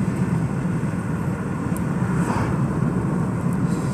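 Steady engine rumble and road noise from a car being driven, a continuous low drone with no clear rise or fall and no talk.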